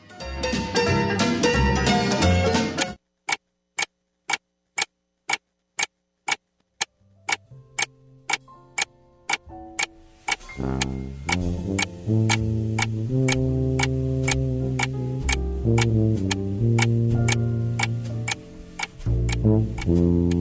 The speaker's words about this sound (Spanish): Las manecillas del reloj suenan y él hace su trabajo.